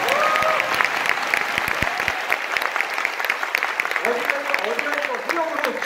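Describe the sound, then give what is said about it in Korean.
Audience applause after a speaker's remark: a loud, continuous wash of clapping from a large crowd, with a few voices calling out over it throughout. “이 정도에 박수 한번 쳐주셔야 됩니다.”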